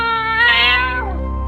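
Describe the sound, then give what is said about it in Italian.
A giant cat yowls as its tail is stepped on, letting out a loud, drawn-out, strongly tonal cry that swells slightly before its pitch drops away at the end. “Solo un principe avrebbe potuto rompere la maledizione, calpestando la coda del gatto gigante.”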